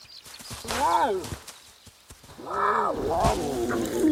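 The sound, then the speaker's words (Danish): Tiger cubs at play make a few growling, moaning calls that swell and dip in pitch, separated by short pauses and soft rustling. “Det er lyden af nogle mega søde tigerunger, der leger.”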